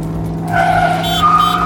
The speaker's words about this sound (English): Now just put the truck in this gear and put the pedal to the metal. But... Punch the gas!